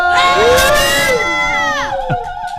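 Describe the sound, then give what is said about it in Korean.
Children from a local community children's center shout and cheer together in a loud, sustained burst of high voices. The burst holds for about two seconds, then drops in pitch and fades. “함성 준비됐어요, 여러분들? 네. 함성 할 수 있어요? 네. 얼굴이 지금 안 될 것 같은데 자 한번 해보도록 하겠습니다. 우리 LH 행복꿈터 현동 지역 아동센터 소리 질러.”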